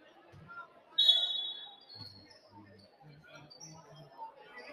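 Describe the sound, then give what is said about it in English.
Basketball dribbled on a high school court during a Fort Madison game, several dull low thuds in a quick, irregular rhythm after a sharp squeak, with voices in the background. “Fort Madison tries to dribble across half the court.”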